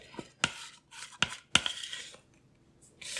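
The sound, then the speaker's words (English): A spatula scrapes pie filling from a mixing bowl: three sharp clinks against the bowl, with soft rasping scrapes between them. “And you will need to scrape the bowl. Sometimes, you know, there's bits that, that get in there and we don't want to waste any of this yumminess.”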